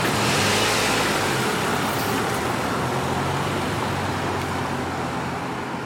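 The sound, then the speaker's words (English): A car drives off with a steady wash of engine and road noise that holds loud and broad and eases off only slightly toward the end. “He gets in, and they drive off suddenly.”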